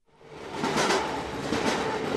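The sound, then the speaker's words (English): A train rolls along tracks outside the town of Tequixquiac in central Mexico, a steady rumbling clatter that fades in at the start and then holds at a fairly even level, with no voices. “All along the train tracks outside the central Mexican town of Tequixquiac, groups of migrants are on the move. They're looking for an opportunity to hop aboard a northbound train all the way to the U.S. border.”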